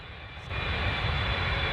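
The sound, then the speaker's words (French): An airplane taking off, heard as a broad engine roar that jumps in loudness after about half a second and then holds steady and strong to the end, with no voices. “Attachez vos ceintures, nous allons tout de suite décoller.”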